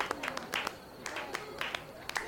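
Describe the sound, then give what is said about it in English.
An audience applauding itself in a classroom-style talk: faint, scattered hand claps from a small group, with uneven bursts rising and thinning across the span. “I'm impressed by your response. Clap for yourselves.”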